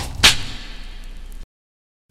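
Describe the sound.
Sharp whip crack in a radio station jingle: one loud, bright snap that trails off into a fading tail. Silence follows, then another sound cuts in at the very end.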